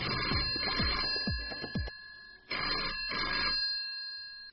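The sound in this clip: A telephone rings for an incoming call to a radio show, giving a few bright, metallic ringing bursts with short gaps between them, loud and alone without talk.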